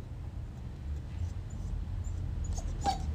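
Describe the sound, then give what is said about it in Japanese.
A dog whimpers while begging for more biscuit snacks, giving a few faint, thin high whines over a low, steady background rumble. “トウイチロー君とおやつの交渉、まだ食べんの？さっき食べたよ。なんだよ、まだ欲しいの？”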